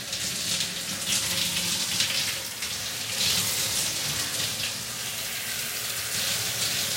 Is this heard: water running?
yes

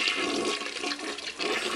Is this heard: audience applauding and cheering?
no

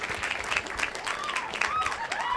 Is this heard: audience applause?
yes

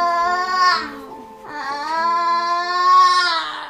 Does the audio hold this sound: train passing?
no

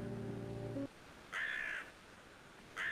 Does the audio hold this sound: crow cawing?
yes

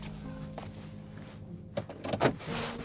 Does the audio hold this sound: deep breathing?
no

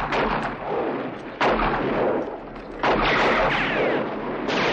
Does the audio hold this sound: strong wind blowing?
no

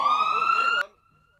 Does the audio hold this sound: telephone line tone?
no

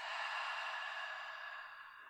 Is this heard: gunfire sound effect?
no

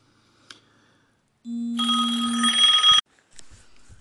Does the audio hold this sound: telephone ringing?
yes

